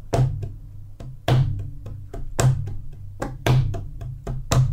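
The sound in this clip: A drum paradiddle with shifted accents runs as a steady stream of strokes. Five loud accented hits fall at even intervals, with softer taps between them.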